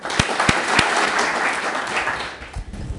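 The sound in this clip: An audience applauds to welcome a speaker at a memorial lecture, with dense, steady clapping over about three seconds that thins slightly toward the end.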